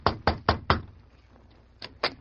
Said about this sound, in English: The two men stopped in front of the room door. The Lone Ranger hesitated a moment, then knocked.